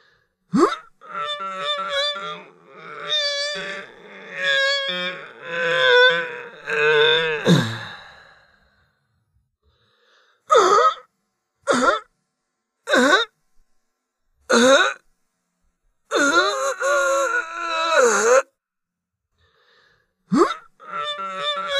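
Kargyraa throat singing demonstrated with deep, rasping growled tones: a long low droning passage comes first, then several short guttural bursts and a longer phrase, all loud and without other sound.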